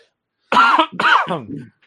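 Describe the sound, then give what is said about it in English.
Coughing from someone choking after something went down the wrong pipe: two harsh, fairly loud bursts, the second followed by a rougher, trailing tail, with silence before them. “Oh, man. Down the wrong pipe.”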